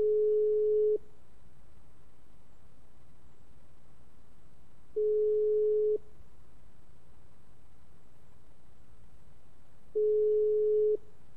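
Telephone line tone while calling friends: three steady, mid-pitched beeps, each about a second long, separated by roughly four-second pauses over a faint background hiss.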